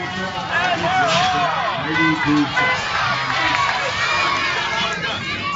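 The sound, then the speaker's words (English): Crowd noise at the Isle of Wight County Fair west of Norfolk, Virginia: a busy babble of many voices talking and shouting at once, with scattered higher calls, children's shouts and brief cheers rising from the hubbub. “The committee that runs the Isle of Wight County Fair west of Norfolk wants the event to sound like this.”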